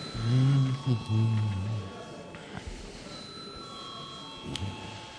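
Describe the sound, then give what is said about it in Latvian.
A bell rings in a parliament chamber to call members to a vote. It is a faint, steady tone that holds through the second half, after a brief stretch of speech at the start. “lūdzu zvanu.”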